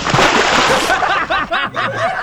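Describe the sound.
A bucket of water thrown in a splash: a loud, dense rush of sloshing water fills the first half, then breaks up into shorter splatters as voices call out over it.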